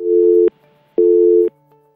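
Busy signal on a phone line after a failed call connection: two loud, steady low-pitched tones of equal length, separated by even silent gaps.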